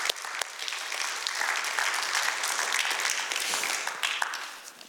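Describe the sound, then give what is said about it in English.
A church audience applauds its volunteers. Dense, steady clapping from many hands holds at an even level for about five seconds. “Let me hear everybody's hands right now for volunteers in the kingdom. Let me hear your hands.”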